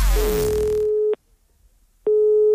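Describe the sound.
Telephone line tone during a prank phone call: a steady single-pitched tone lasting about a second, then a silent pause, then the same tone starting again.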